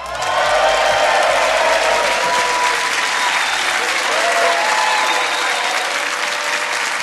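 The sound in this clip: Loud comedy audience applause and cheering at the Cambridge Corn Exchange as a comedian is welcomed on stage, with thick, continuous clapping and scattered whoops and shouts from the crowd throughout.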